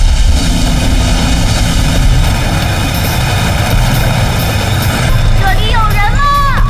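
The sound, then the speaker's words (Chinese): A rocket booster roars in a loud, steady, engine-like blast that stays unbroken from start to finish during a frozen warehouse fire rescue. “火箭加速器。”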